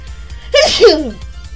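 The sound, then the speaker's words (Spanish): A single sharp sneeze bursts out loud after a quiet moment, rising from a brief intake into the explosive release and then fading back to near silence. “permítanme, voy a estornudar.”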